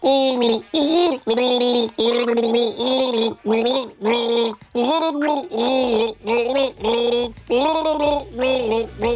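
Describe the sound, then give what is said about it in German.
Gargled pop-song melody from a voice bubbling water in the throat, a loud run of wavering sung notes with short breaks between phrases, heard alone. “dieses One-Hit-Wonder Ihnen vorzugurgeln und Sie sagen mir einfach, um welches One-Hit-Wonder handelt es sich.”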